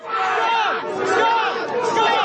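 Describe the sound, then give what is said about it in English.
A crowd of protesters yells and shouts at police: dense, loud, overlapping voices crying out continuously with no pause. “The police rush this crowd that is just standing there yelling things at them.”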